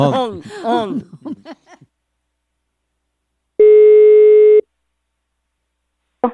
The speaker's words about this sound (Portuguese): eu vou ligar pra Tessa